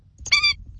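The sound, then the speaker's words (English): An Indian skimmer, the orange-billed South Asian water bird, gives a single harsh, bright call lasting about a quarter second, preceded by a softer note, over a faint low background rumble. “That's the sound of the Indian skimmer, a unique orange-billed water bird native to South Asia.”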